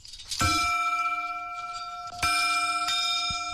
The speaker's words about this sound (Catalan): Doncs vinga, ho fem. Toquem la campana, el batall o com ho diguem, sí?